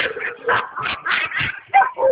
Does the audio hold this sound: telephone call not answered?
no

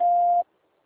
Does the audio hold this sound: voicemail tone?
yes

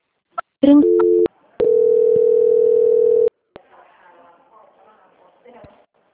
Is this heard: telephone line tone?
yes

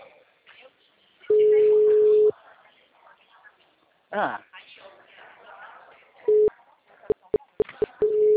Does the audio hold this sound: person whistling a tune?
no

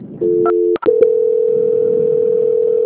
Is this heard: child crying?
no

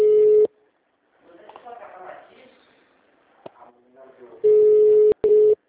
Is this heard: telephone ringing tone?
yes

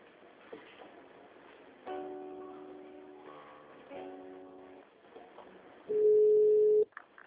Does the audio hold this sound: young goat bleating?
no

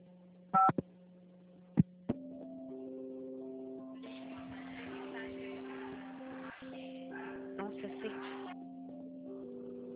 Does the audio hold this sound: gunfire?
no

